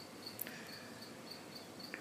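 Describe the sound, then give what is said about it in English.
A cricket chirps faintly, its thin, high-pitched trill repeating several times at a steady pace over a low background hiss, with no voices. “I hear a cricket. That's definitely gonna make it through.”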